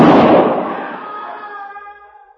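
A single loud gunshot in a firefight, aimed at a man in a tree: a sharp blast followed by a long ringing tail that fades steadily over about two seconds.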